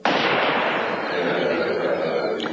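A single gunshot in a dramatized killing, with a sharp onset and a loud, noisy rumbling tail that lingers and fades only slowly.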